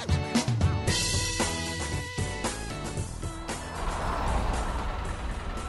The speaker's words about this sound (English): I have managed to persuade my brother Tom to drive me into town.